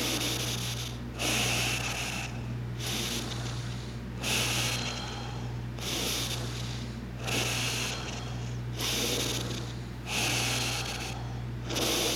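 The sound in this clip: Deep, full breaths in a guided breathing exercise, a slow steady rhythm of long inhales and exhales repeating several times over a constant low hum, with no talk.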